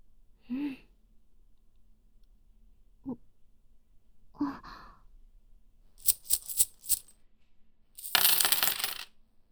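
Coins are dropped during a betting card game. A few scattered faint clinks give way to a quick cluster of sharp metallic clicks, then a brief jangling rush of coins at the end.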